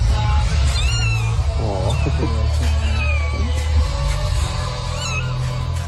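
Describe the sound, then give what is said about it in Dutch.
Thin, high-pitched squeaky meows from a newborn kitten hidden behind the car battery of a Volkswagen Up in a car workshop in Oss. A few short mewing cries rise over steady background music. “Naast de gezellige muziek horen we ook heel klein gemiauw. Een piepend geluid. Het was geen motor die niet meer lekker liep of een band die leeg liep. Nee, achter de accu van de Volkswagen Up zat een pasgeboren kitten verstopt”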